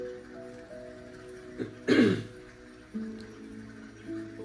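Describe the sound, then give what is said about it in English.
A person clears their throat in one harsh, raspy burst, with a couple of softer rasps just before and after it. Low background hum runs underneath. “Excuse me, having a little throat difficulties, but it's not going to stop me from making this podcast.”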